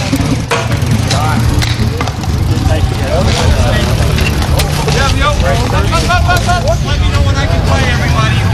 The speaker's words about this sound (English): That is the sound of bike polo.